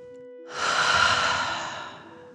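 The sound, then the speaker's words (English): A single long, deep breath during a guided breathing exercise. It swells in, then slowly fades out over a soft, steady background tone. “Fill up your belly. Deep breath in and out.”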